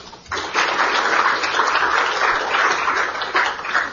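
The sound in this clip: Audience applause welcoming a speaker at an Atlantic Council event: dense, steady clapping that swells in just after the start and carries on evenly to the end.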